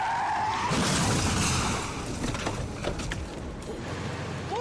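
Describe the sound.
Car tires skid during a police chase, a harsh scrubbing screech that is loudest over the first two seconds, then continues as lower, rougher tire noise with a few sharp scrapes.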